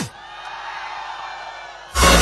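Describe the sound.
Audience screaming at a stage event as a gift is presented, a sustained broad roar of many voices that holds steady, then swells into a sudden louder burst at the end.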